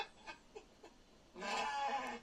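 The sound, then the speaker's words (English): A lost sheep bleats inside a police patrol car: one loud, drawn-out bleat of about a second follows a few faint, brief sounds. “And you can tell, I think that bah was, I think he was saying, thank you for driving me home.”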